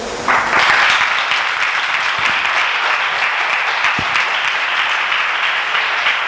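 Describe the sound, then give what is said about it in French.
Congregation in church applauding after a sister's testimony of healing from HIV, a dense, even wash of clapping that starts almost at once and holds steady and loud to the end. “Il faut acclamer Dieu pour la guérison de la sœur.”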